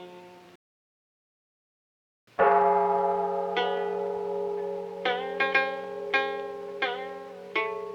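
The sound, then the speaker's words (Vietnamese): A Buddhist temple bell rings in a Vietnamese cải lương opera piece: resonant, bell-like strikes over sustained, reverberant musical tones, after a brief silence at the start. “Ôi nghe chuông đổ vang rền nơi cửa Phật”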